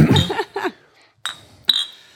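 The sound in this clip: Glasses clink together in a toast: two bright, ringing clinks with a high shimmering tail, coming just after a short stretch of voices talking.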